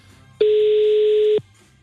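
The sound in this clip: A telephone dial tone sounds as a call is being placed: one steady, clear mid-pitched tone that lasts about a second, with quiet background before and after it.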